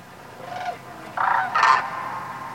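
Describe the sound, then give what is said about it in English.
Sandhill cranes settled in wetlands at night give a few loud, rattling trumpeting calls in short bursts, rising out of a faint steady background. “And they're sandhill cranes that settle in the wetlands probably a couple miles from my house.”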